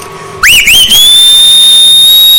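A person whistles loudly on their own: two quick swooping chirps that rise and fall, then a long, steady, high-pitched note held to the end.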